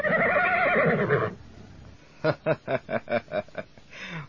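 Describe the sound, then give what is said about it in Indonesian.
A flying horse from a folk tale neighs: a long, wavering harmonic cry, then a run of seven quick pulsing whinny bursts and a shorter final note. “Ragil dapat membawa kuda terbang itu ke istana”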